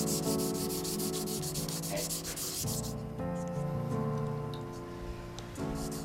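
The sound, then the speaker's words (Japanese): Fine sandpaper sanding Edo ivory from Tokyo, worked through gradually finer grits: a quiet, continuous scratchy rubbing with rapid, rhythmic strokes that are most distinct at first, then a softer, smoother friction. “あまり磨きすぎると薄くなったりしますので徐々に細かいサンドペーパーに変えていきます”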